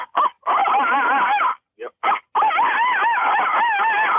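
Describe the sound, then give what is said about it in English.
A person imitates a coyote challenge bark for predator hunting. A few short, sharp barks lead into long, loud, wavering yips and howls. “yep. That's a challenge bark.”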